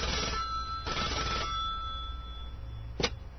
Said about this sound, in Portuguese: deixa eu pegar aqui o telefone. Vamos ligar aqui pra igreja.